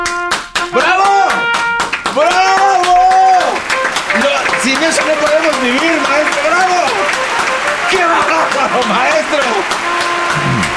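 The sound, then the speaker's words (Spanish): An audience bursts into loud applause, a dense wash of clapping that runs throughout while voices shout and call over it. “Gracias, público. Acostumbrado al aplauso.”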